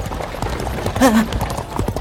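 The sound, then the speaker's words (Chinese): Troop of horses galloping, more than ten riders: rapid, dense drumming of hoofbeats runs throughout, with a brief whinny cutting through near the middle. “两人回头看，远处一支马队飞奔而来。”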